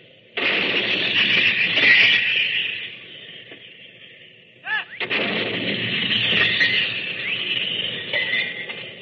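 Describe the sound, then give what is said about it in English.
A 75-millimeter field gun fired by a British gun crew in the First Battle of France: two heavy blasts, each trailing into a long, rumbling decay. “Now here's the sound of a 75-millimeter field gun fired by a British gun crew in the First Battle of France.”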